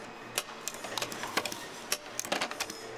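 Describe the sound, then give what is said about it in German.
A machine nails reed plates onto the comb of a Marine Band 1896 harmonica, making many quick, light mechanical clicks and taps in an uneven rhythm over a low, steady hum. The sound is faint overall. “Die Maschine ist mit einem großen Vorrat an Nägeln ausgestattet. Immerhin müssen auf jeden Kanzellenkörper zwei Stimmplatten genagelt werden.”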